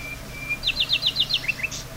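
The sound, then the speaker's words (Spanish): Small birds chirp in a quick run of high, bright notes, followed by a couple of lower, softer calls, faint and with no other sounds. “Escuchar los pajaritos”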